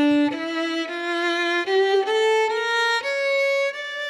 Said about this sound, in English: A minor scale sounds like this.